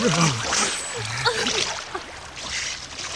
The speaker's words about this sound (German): Die Strömung hier ist ja viel zu stark.